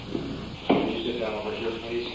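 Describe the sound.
A door opens during a courtroom hearing, heard as one brief wooden thump with a short rattle. Soft rustling and low murmuring voices continue around it.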